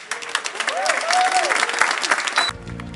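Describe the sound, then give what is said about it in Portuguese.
A church worship audience claps their hands in dense, steady applause, with a voice briefly rising over it before the clapping stops abruptly. “Se você também é livre e está batendo palma para Jesus, pode ser mais forte.”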